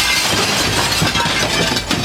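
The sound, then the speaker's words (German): A 4 mm standard glass window pane is smashed in during a break-in demonstration, giving a dense, continuous crunching and crackling shatter that fills the whole moment. “Also da komme ich nicht durch. Der Profi-Einbrecher auch nicht. Na dann schlag ich die Scheibe doch einfach ein.”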